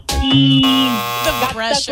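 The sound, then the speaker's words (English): A game show buzzer gives one loud, steady, bright buzz lasting about a second during a timed round, with voices talking around it. “The pressure of the buzzer.”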